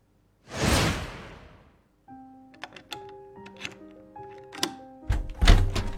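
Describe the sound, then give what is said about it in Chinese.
The entrance door lock being unlocked: a soft whoosh, then a pause, then a run of small metallic clicks and clinks that ends in heavier thunks. “玄关传来开锁的声音”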